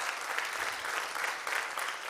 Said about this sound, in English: Give the Lord a clap because you came with the presence of God.